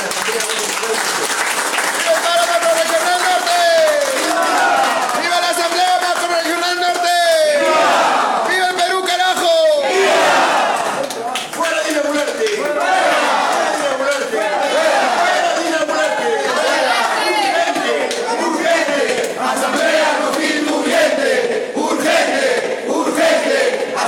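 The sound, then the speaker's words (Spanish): A crowd at an assembly meeting applauds and cheers in a loud, sustained wash of clapping, with shouted voices and calls rising over it throughout. “Bueno, esos son los acuerdos centrales, compañeros, y eso merece un fuerte aplauso.”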